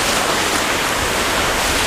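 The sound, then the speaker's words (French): Sea waves on the beach make a steady, loud hiss of surf that rushes on without distinct breaks or pauses, with no voices over it. “tu mets le coquillage sur ta tête pour entendre la mer, mais la mer, tu l'entends ici, t'as pas besoin du coquillage.”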